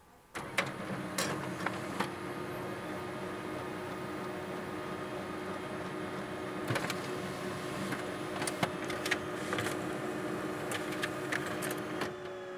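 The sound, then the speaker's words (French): A printer runs while printing coupons, giving a steady, faint mechanical hum broken by scattered sharp clicks and ticks across the whole stretch, with no voices. “j'ajoute au panier. Imprimer. Imprimer mes coupons.”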